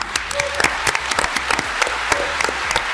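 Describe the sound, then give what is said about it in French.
Clapping from a conference audience welcoming a guest onto the stage at a real-estate industry event, many sharp individual claps standing out from a continuous bed of applause. “J'ai le plaisir d'accueillir sur le plateau quelqu'un que j'apprécie tout particulièrement, une ovation pour Stéphane Fritz, le président de Guy Hockey.”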